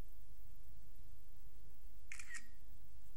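A device's camera shutter fires as it takes a picture: one short, crisp mechanical click with a quick second snap, standing out against a quiet hiss.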